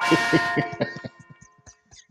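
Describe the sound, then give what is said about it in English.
Church bell sound effect with a handful of quick, ringing strikes that overlap and then thin out into fading, scattered tones. “You trying to skip my church bells? What are you talking about? You and this bell, man. What's going on with you and this bell? But go ahead, play your bell, man. Play your bell.”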